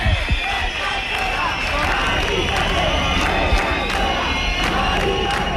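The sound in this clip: Protesters crowd a city street on General Martínez Campos during an eviction, their loud, continuous mass of voices and shouts sustained without a break throughout.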